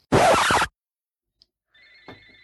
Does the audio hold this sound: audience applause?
no